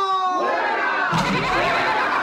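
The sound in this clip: An audience shouts together, producing a loud, dense wash of many voices that continues throughout.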